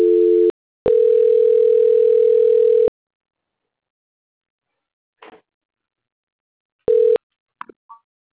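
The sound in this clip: Telephone line tones sound during a call transfer: a short low beep, then a steady tone lasting about two seconds, then silence, another short beep and a few faint clicks.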